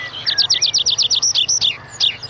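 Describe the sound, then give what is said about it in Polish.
Meadow pipit song: a rapid run of many thin, high repeated notes in quick, even rhythm, ending with a few separate chirps. “Świergotek łąkowy. Ptak śpiewający.”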